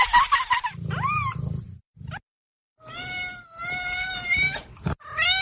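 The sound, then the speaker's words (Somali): A cat meows while playing with a string, giving several drawn-out, high meows. One bends upward in pitch, and low rustling runs under the early calls, with brief pauses between them. “bisadu wali waxay doonaysaa inay ku ciyaarto xariga. Ma u jeedaa bisada xariga had barina uga boodaysaa?”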